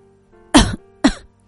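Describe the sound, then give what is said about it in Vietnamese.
Two dry coughs from a person, each a short, harsh burst, the first slightly longer than the second, with a brief pause between them and no talking. “ho khan 2 tiếng mà nói”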